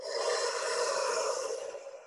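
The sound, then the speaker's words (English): A slow, deep breath in during a guided relaxation: a soft, airy inhale lasting about two seconds, steady and unbroken, heard alone. “Take a deep breath in.”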